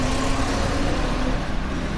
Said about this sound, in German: Der Verkehr auf dem Rustaveli-Prospekt braust unaufhörlich. Abgaswolken hängen schwer in der Luft.